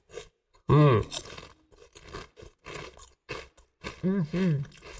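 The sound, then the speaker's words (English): Crunchy kettle potato chips eaten right into the microphone, with sharp brittle crunches scattered through the chewing and a couple of loud voiced hums breaking in between bites. “These are straight up... real deal fucking kettle chips right here. This all right. Local shit right here. Let's find a good one. I want to taste some. Okay, hold on. I'm going to do this. Taste on that. Mic.”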